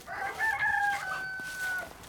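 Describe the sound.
A single rooster crow, a harmonic cock-a-doodle-doo lasting nearly two seconds: short opening syllables followed by a long note held at a steady pitch that then tails off. It is fairly faint, with no talk.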